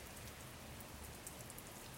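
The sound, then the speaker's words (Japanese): Rain falls in a forest as wind stirs the leaves, making a steady, dense, soft hiss of drops with no clear separate hits and no voices. “雨風で葉っぱが揺れる音”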